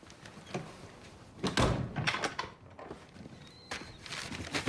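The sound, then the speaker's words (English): A door being locked in a dark cabin in the woods: a few dull knocks and clicks of the latch, moderately loud against a quiet background, with no talking. “He locks the door, then fixes himself a drink.”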